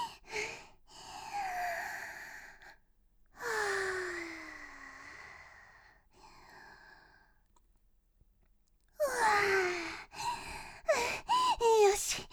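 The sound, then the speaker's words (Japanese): Someone takes deep, calming breaths when flustered: several long, audible breaths with voiced, sighing tones, separated by quiet pauses, the last stretch louder and busier with breathy vocal sounds. “困った時の深呼吸。”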